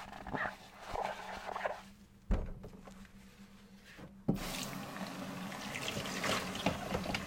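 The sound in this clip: Tap water runs as plastic food containers with greasy oil stains are washed at a sink. A few soft knocks and a sharp click come first, then a steady hiss of flowing water starts and continues to the end.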